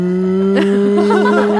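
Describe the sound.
A human voice imitates a cow's moo with wavering, rising-and-falling sung tones, set over loud, steady sustained musical notes.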